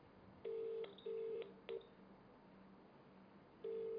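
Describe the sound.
Telephone keypad tones as a call is dialled: four short, faint beeps of varying length, unevenly spaced, over a low background hum.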